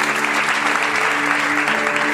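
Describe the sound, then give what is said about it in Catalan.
Loud audience applause at an awards ceremony honoring a generative AI company, a thick, continuous roar of clapping with steady low tones sustained underneath. “Un aplaudiment, sisplau, per ella.”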